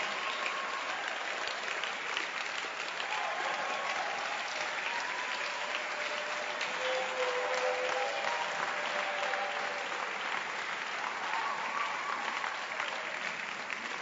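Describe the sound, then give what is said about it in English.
Sustained audience clapping at a church gathering as a reverend and his wife are called forward: a long, even wash of applause that stays dense and fairly soft throughout, with faint tonal sounds drifting over it. “Oh, keep clapping your hands for them.”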